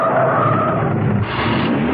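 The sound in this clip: A car brakes hard in a car park with its tyres skidding: a steady, loud, hissing screech throughout that shifts slightly in tone partway, with no talk.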